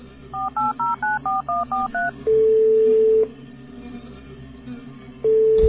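Keypad tones as a phone number is dialed on a mobile phone: eight quick, evenly spaced two-note beeps, then a long steady tone, a pause, and the same steady tone starting again.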